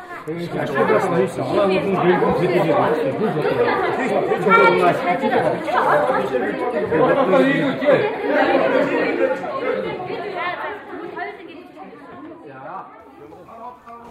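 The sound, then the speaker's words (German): A loud group discussion among younger participants in a hall fills the air with many overlapping voices talking at once, a dense, continuous chatter that thins slightly near the end. “Alle sind sehr aktiv und diskutieren intensiv über ihre Ideen. Die Gruppen mit jüngeren Mitgliedern sind sehr laut. Jeder spricht, wann er möchte. Niemand hört auf den anderen.”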